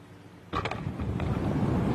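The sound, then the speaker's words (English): Strong wind at sea batters a small rowing boat during a North Atlantic hurricane. A quiet low hiss suddenly breaks into a loud, rough, gusty roar that keeps surging unsteadily to the end. “There's a very strong wind from the...”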